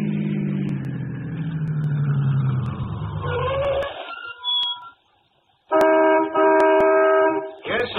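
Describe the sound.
A car engine slows and winds down as the vehicle pulls into a gas station at night, with a loud rumble that fades, a brief near-silence, then a sustained bright tonal sound.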